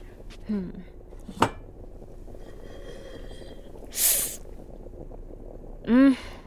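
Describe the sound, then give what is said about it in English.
Clinks and clatters of kitchenware as a cooking pot is checked during work on a New Year's recipe: a sharp click, a short hissing burst and a brief squealing scrape over quiet background noise. “Ooh, I better check on that pot.”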